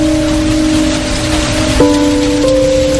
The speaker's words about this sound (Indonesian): Kuperhatikan hujan mulai turun dengan deras.